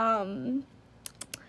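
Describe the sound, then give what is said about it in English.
Tongue clicks follow a brief stretch of speech: three quick, sharp, dry clicks in a loose, uneven sequence. “I don't know what that weird, like, tongue-clicking was.”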